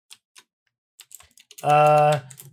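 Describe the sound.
Sparse clicks of typing on a computer keyboard, a few separate keystrokes spaced apart, followed by a brief voice.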